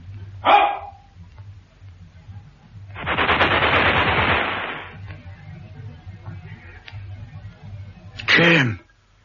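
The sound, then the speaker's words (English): Gunfire in a dramatic military scene: a short sharp report, then a sustained rapid burst of shots, and another brief loud burst near the end. “I shot him, sir.”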